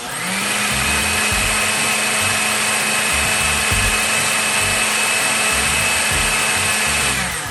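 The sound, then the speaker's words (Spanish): A blender purées a cooked potato cream soup after the potatoes have gone tender. It gives a loud, steady whirring roar that runs the whole time, with a churning, uneven low rumble beneath and no voices. “Cuando todo esté suave, apagamos el fuego y licuamos hasta obtener una crema homogénea.”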